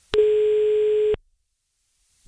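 A telephone ringback tone sounds while a call is placed: a single steady mid-pitched beep lasts about a second, then cuts to silence.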